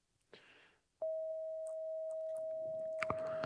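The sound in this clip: A steady pure 639 hertz sine tone, a healing frequency tied to the heart chakra, holds at one pitch without wavering. It follows a brief soft noise and stays loud and unbroken to the end.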